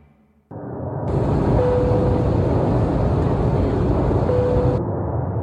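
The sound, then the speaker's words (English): Steady airliner cabin drone during descent into Byron Ballina Gateway Airport, a loud, even roar that starts abruptly after a brief quiet moment and holds without a break. “This is your captain speaking. We've commenced our descent into Byron Ballina Gateway Airport.”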